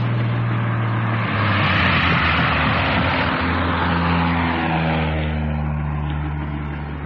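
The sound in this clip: Aircraft going in low over a croft near the shore give off a loud, sustained engine roar with shifting low droning tones. The roar holds steady and eases off slightly at the end.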